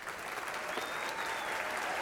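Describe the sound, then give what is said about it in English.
Dense, steady applause fills the whole short stretch as an audience at a Commonwealth Club event in Silicon Valley welcomes a speaker onto the stage, the clapping holding an even level throughout. “You don't get a round of applause just by walking on a stage like that”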